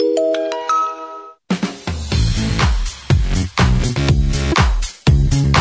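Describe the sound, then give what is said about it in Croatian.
Advertising jingle from the Radio Banovine station: a short run of bright chiming bell tones opens it, then a brief pause, then loud, full-band music with punchy beats and a few short breaks. “Najavni džingl označio početak drugog kruga današnjih oglasa.”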